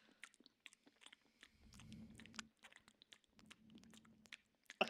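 Biting and chewing an apple: a few crisp, crunchy bites followed by wet, irregular chewing, fairly faint and heard alone without talk.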